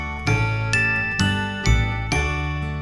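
A bright tinkling jingle song of five evenly spaced chiming notes, each struck crisply and ringing briefly into the next, played alone without voices.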